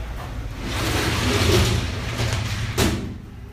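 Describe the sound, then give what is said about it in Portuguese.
A window being closed: a soft sliding rumble swells over a second or so, then ends in a brief sharp bump near the end. The sound is fairly quiet, with no voices. “Nossa, o barulho da janela, vou fechar um pouquinho.”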